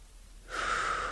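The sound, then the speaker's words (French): A breath drawn during a guided breathing exercise: a soft, airy whoosh that starts partway through and holds steady. It is faint and sounds alone, with no talk over it. “Nous inspirons et nous soufflons. Nous inspirons, nous laissons l'air”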